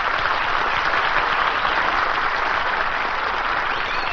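An enthusiastic studio audience at a comedy stunt show applauds in a dense, even wash of many hands clapping. It holds steady and unbroken throughout, with no voices on top.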